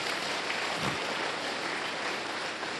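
A church audience claps together after a blessing, a faint, dense, even patter of many hands that stays steady for the whole stretch.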